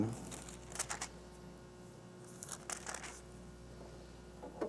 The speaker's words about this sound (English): I love the sound of pages turning in the Bible.